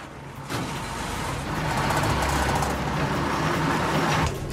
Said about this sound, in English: The bicycle shop owner gets onto a bus and it starts moving.